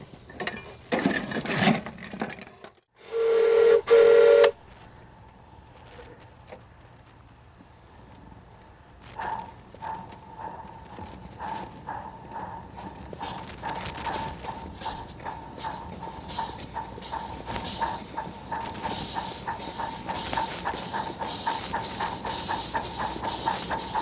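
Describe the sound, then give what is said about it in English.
Brake test on a steam train in the rain, with bursts of hissing steam and a loud, steady whistle blast, followed by a long run of rapid, rhythmic pumping pulses over continuous hiss. “All right, now we're gonna just make a brake test.”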